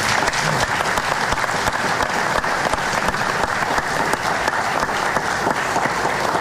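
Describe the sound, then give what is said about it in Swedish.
Audience applause at a Swedish political party event: loud, dense, sustained clapping holds at a steady level for the whole span. “Jag tycker de kan få en applåd till.”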